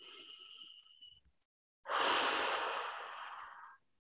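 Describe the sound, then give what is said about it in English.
A deep breath drawn in during a guided goddess-energy meditation: one loud, airy rushing inhale lasting about two seconds, rising sharply and tapering off, after a short stretch of soft tonal sound and a quiet gap. “So taking a deep breath in here.”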